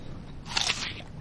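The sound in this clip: A single short, crisp crunch of someone biting into food served with a homemade sauce. The bite is faint over a quiet background.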